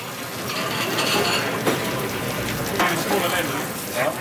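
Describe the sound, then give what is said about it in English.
Potatoes frying in a restaurant deep fryer, giving a constant, dense crackling sizzle with a few brief louder pops rising out of the steady bubbling. “I reckon most tables will order one of the potato dishes, no matter what. So that goes in the fryer. Just as that's going in the fryer, we're going to start getting our sauce ready.”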